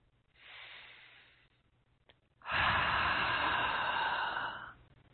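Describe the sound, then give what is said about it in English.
A deep breath: a soft, airy inhale, a short pause, then a longer and much louder sighing exhale that fades at the end, with no talking. “Let's take a nice deep breath, please.”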